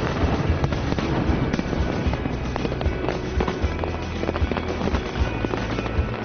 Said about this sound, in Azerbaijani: Həftənin cümə və bazar günləri isə şəlalənin üzərində atəşfəşanlıq olur.